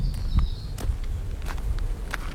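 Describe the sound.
Footsteps of people setting off on a walk in a forest. A few soft, crunching steps land at irregular intervals over low rumbling background noise, with no clear talk.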